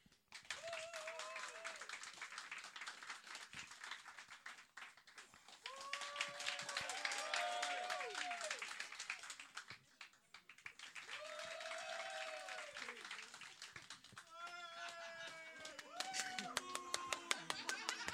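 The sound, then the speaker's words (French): An audience applauds in repeated rounds to vote on which person to keep. Several separate swells of clapping are mixed with whoops and cheering voices, with short dips between rounds and the last round the loudest. “Par applaudissement, les gens qui veulent garder la personne que je pointe, puis là, c'est la première, c'est ça.”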